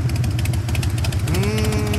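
A motorcycle engine throbs with a pulsing low rumble, then its pitch climbs as it revs, loud and continuous with no voices.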